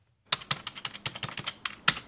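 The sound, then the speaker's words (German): Numbers are typed into a spreadsheet on a computer keyboard at a credit rating agency. Many quick, crisp key clicks come in an irregular rhythm, fairly faint, with no voices. “tippt aktuelle Zahlen der Freiburger Gemeinde Düdingen in den Computer.”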